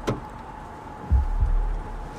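A Peugeot 206 car door is locked and people get into a car: a sharp click at the start, then a couple of low, dull thuds with rumble, and another faint click at the end over a quiet steady hum.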